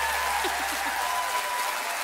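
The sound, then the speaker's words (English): Audience applause for musicians on stage: an even wash of many hands clapping that holds steady for the whole stretch, with no talk over it. “How about a round of applause for all of these people on stage, ladies and gentlemen?”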